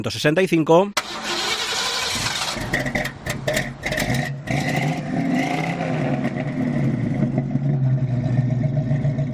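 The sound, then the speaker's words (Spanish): A 1965 Ford Mustang engine cranks and catches in the first second, then runs with a loud, steady rumble and bursts of revving throughout. “Este sonido de un Ford Mustang de”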